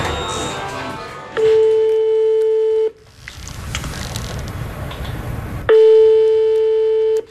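A telephone line rings through as a hospital transplant coordinator in Liège calls a patient: two long, steady, loud ringback tones separated by a pause filled with hissy line noise, with no talk.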